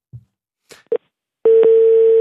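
A telephone tone on an international call to a hotel abroad: a few soft clicks, then a steady, unbroken electronic tone starts and holds loud to the end.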